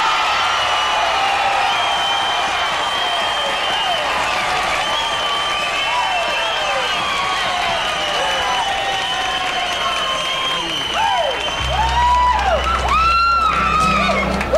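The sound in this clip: An audience cheers and applauds as a country singer walks on stage, a loud, unbroken wash of clapping laced with whoops and shrill whistles that carries on throughout, with a low hum joining near the end.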